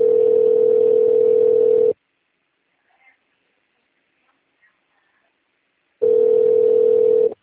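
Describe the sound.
Ringback tone of a telephone call while an automated phone line connects: two long, steady, mid-pitched tone bursts, each about two seconds, with a stretch of near silence between them.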